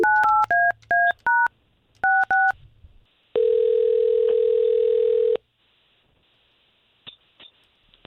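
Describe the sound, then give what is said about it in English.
A telephone is dialed to call someone, with a quick run of touch-tone beeps in two bursts, then a single steady tone of about two seconds, followed by near silence and a few faint clicks. “All right, let's call her.”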